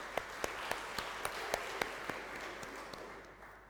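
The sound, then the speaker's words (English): Faint audience applause for charity walkers who completed a sponsored walk: a soft, steady patter of clapping with sharper single claps standing out at a fairly even pace, easing off toward the end. “Let's give them a round of applause.”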